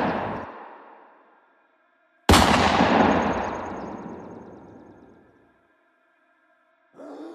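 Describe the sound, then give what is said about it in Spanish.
A few loud gunshots ring out, each one sharp at the start and then fading in a long decay. Silent gaps separate the blasts, and there is no speech. “¡Le dispararon al cuaco, huevón, por la espalda! ¡Se lo bajaron!”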